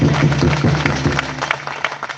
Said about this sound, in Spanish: El primer aplauso es para todos ustedes.